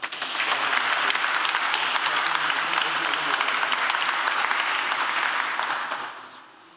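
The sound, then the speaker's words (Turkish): Audience applause at a formal exhibition opening ceremony attended by the president, a loud, sustained roar of many hands clapping that holds steady for about six seconds and then fades away. “Alkışlarınızla.”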